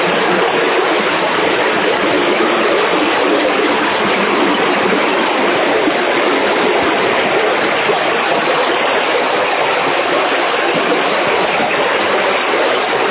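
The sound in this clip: A strong water current rushes through a rocky tunnel at a low water level, making a loud, steady, continuous roar with no breaks and no voices.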